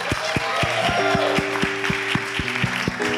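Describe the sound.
Audience applause greets a woman invited up by a host at a live show. The clapping is steady and dense, with a regular beat and sustained tones running underneath.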